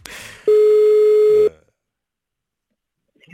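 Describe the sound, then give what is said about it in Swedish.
A telephone ringing tone while calling a hotel in Linköping: one clean, steady, mid-pitched tone lasting about a second, loud and alone, followed by near silence. “Benjamin få ringa till ett hotell i Linköping och försöka få ett rum”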